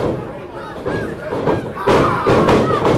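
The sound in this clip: Heavy thuds of a wrestler's knee strikes during a wrestling match land as a few dull impacts, partly masked by crowd noise and talk.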